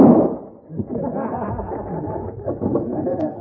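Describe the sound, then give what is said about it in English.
A single sharp gunshot rings out as a driver is shot during a holdup over gold, a loud burst at the very start that gives way to murmuring voices and rustling. “He shot the driver.”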